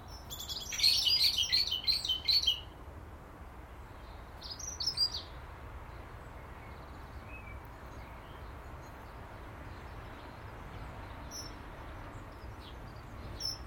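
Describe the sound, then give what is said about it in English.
A resident flock of birds chatters inside a thick hedge: a short burst of bright, busy chirps early on, a few more calls near the middle, then faint, steady background hiss. “a resident flock in there. Sometimes when you pass, you can hear the chatter, and it's still there when you come back half an hour later.”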